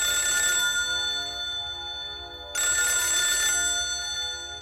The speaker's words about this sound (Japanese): ある日友達の一人の家に深夜そいつから電話がかかってきて、